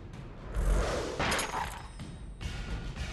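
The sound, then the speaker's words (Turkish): Cannons firing from a factory toward a palace, heard as dense, overlapping booming blasts and a heavy rumble that keep going throughout, with louder bursts rising out of the steady roar. “Ateş! Ah, dahası da varmış ya. Lokşen'in fabrikasından Gongmen Sarayı'na toplar atılıyor.”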